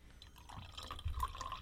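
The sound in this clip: Sparkling wine poured into a champagne glass, a soft, steady stream of liquid with fizzy crackle that gets a little louder partway through as the glass fills.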